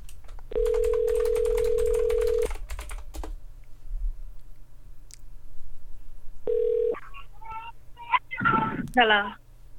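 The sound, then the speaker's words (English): A steady telephone tone sounds while someone calls a person back. It hums for about two seconds under clicking that resembles typing, returns briefly later, and is followed by voices. “Okay, I'll try one more time, but yeah, we do need to get them back on the phone.”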